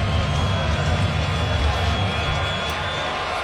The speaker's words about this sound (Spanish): El público alentando.